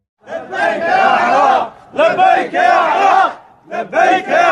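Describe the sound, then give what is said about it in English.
Iraqi government troops in Kirkuk cheer and shout together, celebrating the lowering of the Kurdish flag and the raising of the Iraqi flag. Three loud bursts of massed voices come in a row, separated by brief pauses. “That's the sound of Iraqi government troops in Kirkuk yesterday, celebrating the lowering of the Kurdish flag and the raising of the Iraqi flag.”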